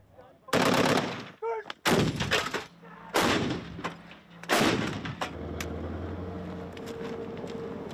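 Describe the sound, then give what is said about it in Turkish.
Gunfire and artillery at a military firing exercise at an army barracks in Polatlı, Ankara: several sharp, loud blasts at irregular intervals, then a sustained low rumble of continued firing. “Ankara'nın Polatlı ilçesindeki Sakarya kışlasında yapılan tatbikatta pek çok silah ve mühimmatla çeşitli senaryolar üzerinden atış yapılıyor.”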